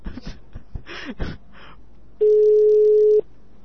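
A telephone busy tone sounds after the receiver is hung up: a single steady, loud beep lasting about a second, following a few brief, irregular noises.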